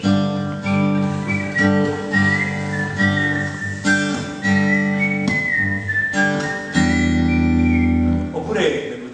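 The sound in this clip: A person whistles a slow, gliding tune in clear, bright notes that waver and slide between pitches, with steady low tones sounding beneath the melody throughout.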